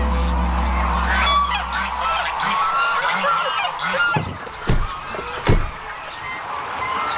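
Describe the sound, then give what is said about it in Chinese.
A lion-head goose, China's largest goose breed, with brown plumage, a heavy frame and a black fleshy crest, gives a few loud nasal honks. The honks sound over a low hum early on, and a few sharp knocks follow later. “身披棕羽，骨架粗壮，头顶黑色肉冠，这是中国最大的鹅——狮头鹅。”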